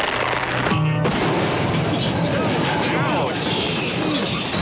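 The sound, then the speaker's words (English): Explosion sound effect as a giant television with a man lowered inside it blows apart at an award ceremony, leaving rubble and fire. A dense, loud roar holds steady throughout, with a sharp change in texture about a second in. “Oh, but wait, Mick, he's emerging from the rubble. Yes, but he is on fire.”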